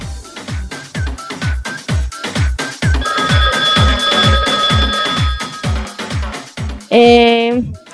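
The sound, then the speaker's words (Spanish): A telephone rings for an incoming call, a steady trilling tone over a loud, rhythmic low pulsing backing, ending with a brief bright harmonic burst. “Tenemos una llamada al aire.”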